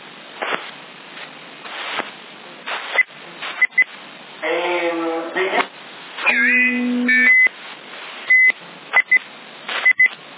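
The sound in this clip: Short, high electronic beeps cut repeatedly through a CB radio channel, several clipped tones scattered between bursts of band-limited radio noise and voices talking over the transmission.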